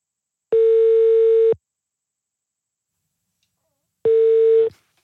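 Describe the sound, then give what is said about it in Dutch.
A telephone ringing tone as a call is placed, two steady, even beeps separated by a long silent gap. “We gaan nu bellen met Arnold van der Leijden, oud bokser.”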